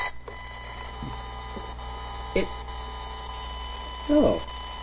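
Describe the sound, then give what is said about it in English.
A Windows computer runs and stays busy with background tasks, giving off a steady electrical hum with faint tonal whine, broken by a few soft, brief clicks and chirps, one slightly louder near the end. “The machine is now running. And the normal sound of a running Windows machine, at least my running Windows machine,”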